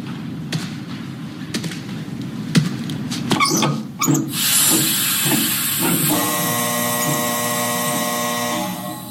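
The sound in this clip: CO2 gas hisses from a line in a meth lab beneath an industrial laundromat, bursting in after several sharp knocks and clanks and holding a loud, even hiss with a thin whistling tone to the end.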